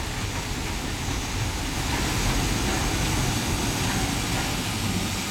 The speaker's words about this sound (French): En vicinale. La locomobile.